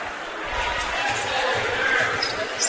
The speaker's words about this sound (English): Couple of dribbles, second free throw is up, and that one's good.